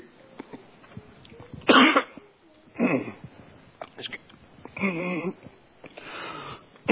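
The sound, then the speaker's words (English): Coughing and throat clearing from a man who chokes up while reading scripture aloud. A few separate, rough coughs break up otherwise quiet moments, with brief voiced sounds between them. “Excuse me. And I think that got choked up there just a little bit.”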